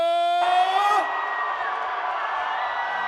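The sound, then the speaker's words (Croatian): A concert crowd screams and cheers for a singer. A sustained tone gives way to a loud, dense roar of shrieks and whoops that holds steady to the end. “Da vas čujemo, najveći vrisak za našeg kralja, kaže Aca!”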